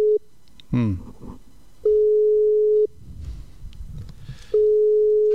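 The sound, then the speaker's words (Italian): Busy tone on a phone line during an attempted video call: long, steady, mid-pitched beeps lasting about a second each. Pauses with faint background noise separate the beeps. “No, da occupato. Sono da occupato, facciamo una veloce chiamata.”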